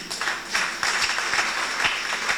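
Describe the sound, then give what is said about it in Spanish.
A church audience claps during a religious service, producing steady, dense applause with scattered sharper claps. It is moderately quiet and continues the whole way through, with no talk over it. “ya que estamos acá en esta, la visita del arcángel, ¿por qué no darle palmas, hermanos y hermanas?”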